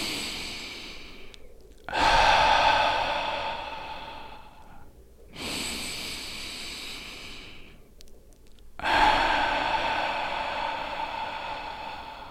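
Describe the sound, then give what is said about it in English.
Three long, deep breaths drawn in by a person demonstrating slow breathing. Each is a loud, airy rush that starts abruptly and tapers over a few seconds, with short quiet gaps between them and no talk. “So it was like a deep breath in.”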